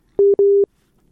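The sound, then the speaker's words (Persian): A telephone busy signal follows a dropped call: two steady mid-pitched beeps, the second longer than the first, loud and alone, followed by quiet. “این باز قطع شد.”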